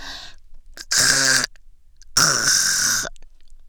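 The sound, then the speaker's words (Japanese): A throat hawks up phlegm twice. Each harsh, rasping burst lasts about half a second to a second, with quiet pauses between. It is performed deliberately by a heavy smoker in a crude roleplay. “罰として下品なの聞かせたろうか。タンの音とか最高やろ。”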